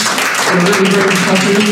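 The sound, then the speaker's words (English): A brief round of applause breaks out at a networking event. The clapping is short and dense, with people talking over it. “let's get a round of applause there”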